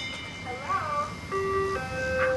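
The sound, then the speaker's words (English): An ice cream truck's chiming jingle as the truck rolls past on a hot afternoon where kids are playing. A few sustained, bright melodic notes ring out steadily over low background noise. “An ice cream truck rolls by.”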